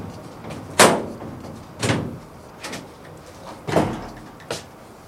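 A bolted door aboard a ship being worked open: five heavy thuds and clunks at irregular intervals, the first the sharpest, with no voices.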